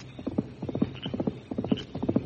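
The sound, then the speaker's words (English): Hoofbeats of a horse being ridden out of town, a steady, moderately quiet clip-clop. Many hoof strikes fall in quick galloping clusters of two or three, with no talk over them. “Somebody's riding out of town now. Me hear hoofbeats.”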